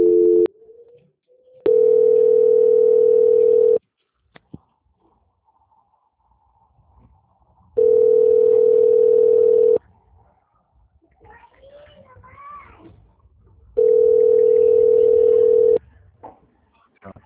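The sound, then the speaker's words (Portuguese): Telephone call-transfer tones while a caller waits on the line: three long, steady, mid-pitched beeps, each lasting about two seconds and spaced evenly apart, with faint sounds on the line between them. “Peço que o senhor aguarde em linha e não desligue, que eu farei a transferência para o setor de auditoria.”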